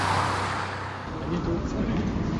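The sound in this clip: A car driving fast, carrying a minister to his train station, makes a loud, steady rushing roar that stays fairly even throughout.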